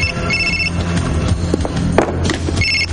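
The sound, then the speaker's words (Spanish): A telephone rings in a tense thriller scene, with two short bright ring bursts at the start and end, separated by dull thumps and low rumbling noise. “El argentino coge el teléfono.”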